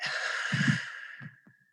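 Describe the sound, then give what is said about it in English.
A deep breath taken during a relaxation exercise, a long airy rush that holds steady and then fades away over under two seconds, alone with no speech. “take another breath in”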